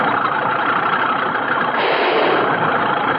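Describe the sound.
A Caterpillar bulldozer engine drives forward to clear land, a loud, steady mid-pitched rumbling drone that holds evenly throughout with no voices.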